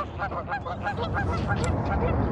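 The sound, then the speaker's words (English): Angry geese honking, many repeated nasal honks in quick succession over a low, rumbling background, fairly faint overall. “They're angry. Angry geese.”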